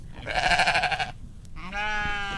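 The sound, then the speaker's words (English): Two sheep bleats on a regenerative farm in Rancho Cordova: a loud, quavering bleat first, then a pause and a steadier, higher bleat. No voices are heard. “Sheep are one of the newest additions to Soilborne Farms.”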